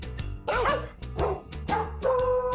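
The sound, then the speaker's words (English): Dog barks are used as a few pitched notes in a novelty song of dogs and cats singing together, set over a rhythmic backing. “Yeah, this one has cats. Dogs and cats singing together.”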